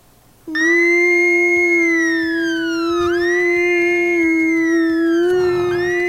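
A facility alarm: after a moment of quiet, a loud siren wail cuts in abruptly and holds a steady, piercing tone. Its upper pitch wavers slightly, and it sounds alone without voices.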